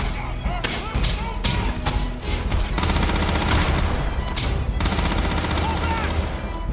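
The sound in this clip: Heavy gunfire rattles through a pirate-themed shooter video game, with many rapid shots fired in dense bursts and repeated volleys, loud and nearly continuous throughout.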